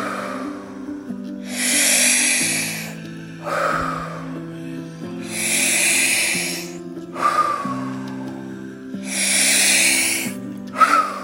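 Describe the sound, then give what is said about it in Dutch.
Deep breaths move in and out during a connected-breath exercise: three long, loud, airy breath phases alternate with quieter pauses over soft, sustained background tones. “En dan ga je alleen maar heel erg ontspannen en voelen wat deze verbonden adem met je gedaan heeft. Daar gaan we. Adem in. Laat gaan. In. Uit.”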